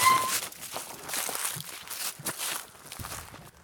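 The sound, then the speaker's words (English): Footsteps of someone going for a walk outdoors as dusk falls. Soft, irregular steps sound over a steady rustling background noise. “And it's going to be dark in a minute. I'm gonna go take a walk.”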